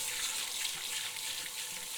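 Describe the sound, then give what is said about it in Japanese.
Shower water runs steadily during hair washing, a constant even hiss with no breaks and no voices. “シャワーされながら頭をわしゃわしゃマッサージされるだけでももう結構気持ちいいですよね。”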